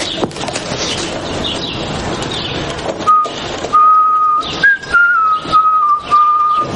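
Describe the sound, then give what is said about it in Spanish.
A man whistles a short melody in clear, bright notes that step up and down in pitch. The tune begins partway through, after a few seconds of rough background noise. “Se marcha y el hombre indio comienza a silbar.”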